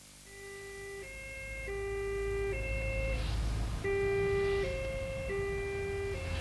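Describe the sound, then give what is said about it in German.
An emergency siren switches on and wails in an alternating two-tone pattern, low then high, repeated several times at a moderate level over a low vehicle rumble. “Warum schalten Sie denn die Sirene ein?”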